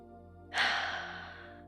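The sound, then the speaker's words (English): One slow, deep breath drawn in during a soft-spoken guided sleep hypnosis session, a faint airy rush that starts abruptly and then tapers off gradually over a low, steady hum. “I'd like you to start by taking a deep, comfortable breath.”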